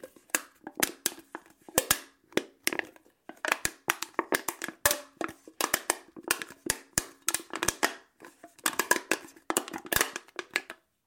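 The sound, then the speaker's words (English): A can is crinkled by hand, giving many sharp, irregular crunches and crackles in quick bursts with short gaps between them, loud and heard alone. “That was the sound of me crinkling a can.”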